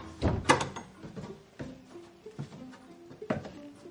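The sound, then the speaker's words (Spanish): A door is opened as someone steps out, with a few soft knocks and thuds of the latch and wood, faint and spaced out over a quiet background. “Abre la puerta y sale.”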